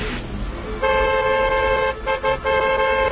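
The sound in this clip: Car horn blasts from a car on a dark, unlit highway, signalling across a narrow median: a loud, sustained, steady-pitched honk over road rumble that breaks off briefly and then sounds again.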